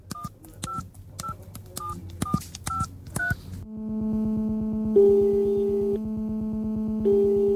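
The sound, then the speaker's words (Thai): Telephone keypad tones as someone dials a garage about a broken-down car: a quick series of short, bright dual-pitch beeps, then a steady low electronic tone with higher tones switching on in repeated long bursts. “ข้าเจ้าจะโทรไปเอง”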